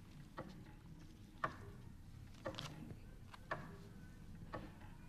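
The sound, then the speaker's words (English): Faint ticking of the master control clocks in a radio clock room: five steady ticks about one second apart over a low, constant background hum. “This is the sound of the clock room that holds the master control for all the clocks of sound radio”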